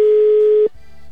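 Ringback tone of an unanswered telephone call: a single loud, steady, pure tone that lasts well under a second, then cuts off abruptly into a faint low hum.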